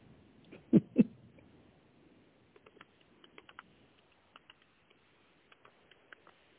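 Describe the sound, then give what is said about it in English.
Typing on a computer keyboard: faint key clicks in scattered, irregular bursts, after two louder, low thumps near the start. “Let me type this in here.”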